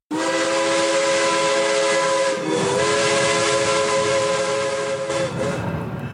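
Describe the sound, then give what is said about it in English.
A steam locomotive whistle blows loud and sustained for several seconds, its bright multi-tone chord wavering a couple of times over a constant hiss of steam, with no voices. “Your locomotive is here, gate number 23. Again, gate number 23.”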